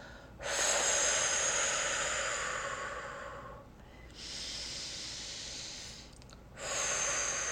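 Slow, deep breathing during a guided breathing exercise: three long, airy breaths, each a steady soft rush of air that fades before the next, with no talking.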